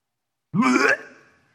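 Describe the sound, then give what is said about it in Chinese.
A voice imitates retching from nausea: one short, strained, guttural gag with a harsh, voiced onset that slowly trails off, heard alone. “不好意思我必须用这样子的声音来让大家知道到底那个是怎么样一个地方什么地方什么味道什么环境会让你觉得难受恶心想吐。”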